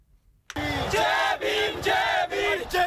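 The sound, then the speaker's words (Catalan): Crowd of thousands of young people protesting corruption in the education system in the streets of New Delhi, India, chanting and shouting in loud, rhythmic bursts with short gaps between them. “És el so de les protestes de milers de joves que avui s'han mobilitzat pels carrers de Nova Delhi, a la Índia.”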